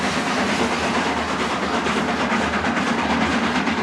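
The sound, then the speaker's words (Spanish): A train approaches a rural town, a loud, steady rumble and hiss of rolling rail cars that holds constant throughout with no clear pauses. “Un tren se aproxima a una población rural.”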